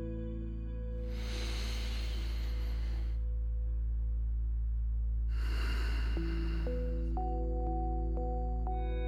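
Two slow, airy breaths over a sustained low musical drone, with soft melodic tones stepping in near the end.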